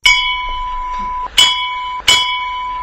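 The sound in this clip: A bell rung very hard during a puja, three loud metallic strikes at uneven intervals, each leaving a bright, sustained ringing tone that carries on between the hits.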